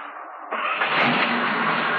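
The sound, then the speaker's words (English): A pickup truck's engine rumbles as a constant, dense noise that jumps up in loudness at about half a second and grows fuller again just after, then holds steady. “Marcy, tie this tow rope to the bumper hitch on the pickup. Okay. Now the other end of the tow rope is hooked around the top girder. You watch Bobby while I drive.”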